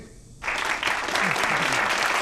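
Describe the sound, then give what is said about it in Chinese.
Studio audience applause at a game-style competition show breaks out suddenly after a brief quiet moment, then carries on as loud, dense, steady clapping from many people. “大家先别忙着鼓掌哈”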